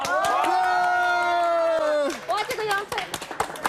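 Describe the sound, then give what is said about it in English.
Group applause and cheering at a gathering: several voices hold a long, loud cheer, then scattered claps and excited shouts break out for the rest of the moment. “来来来来，哇，各位，大家一起，一二三，鼓掌！”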